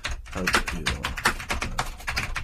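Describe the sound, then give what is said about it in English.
Heavy, forceful typing on a computer keyboard while an email is being written: many loud, irregular key strikes in quick succession. “I type very heavily. It's an affliction that I might have.”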